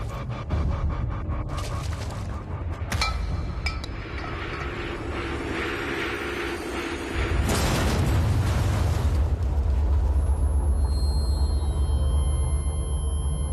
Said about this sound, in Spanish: otro hombre lanza una bomba que explota al lado del vehículo.